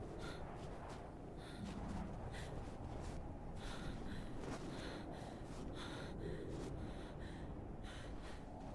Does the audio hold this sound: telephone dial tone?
no

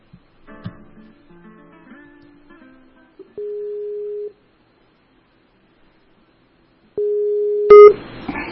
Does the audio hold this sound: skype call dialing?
yes

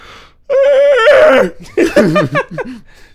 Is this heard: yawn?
yes

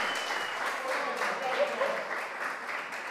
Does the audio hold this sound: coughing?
no

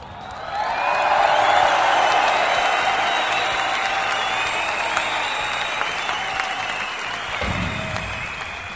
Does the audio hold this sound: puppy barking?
no

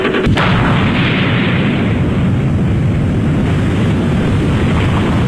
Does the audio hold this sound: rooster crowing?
no

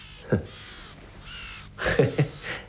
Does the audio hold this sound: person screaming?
no

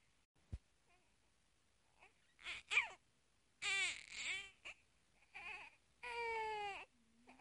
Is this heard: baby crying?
yes

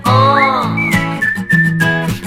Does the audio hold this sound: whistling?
yes

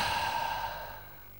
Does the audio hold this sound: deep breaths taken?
yes

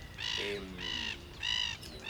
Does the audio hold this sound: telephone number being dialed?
no

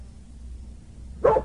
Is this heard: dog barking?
yes

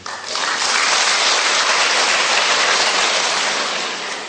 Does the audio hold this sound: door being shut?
no

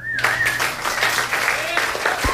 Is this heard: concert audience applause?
yes

